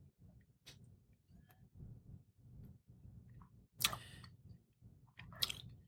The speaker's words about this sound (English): It's opened up a little bit more. Let me get a little taste here.